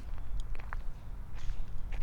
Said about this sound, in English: So anyway, walking across the land bridge,